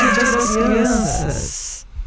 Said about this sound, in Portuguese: pede o miado